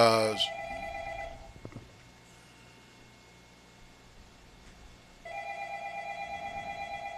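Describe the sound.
A telephone rings for an incoming caller: a loud electronic trill rings for about a second, then a long quiet stretch of faint hiss, then a second ring with a steady tremble that continues to the end.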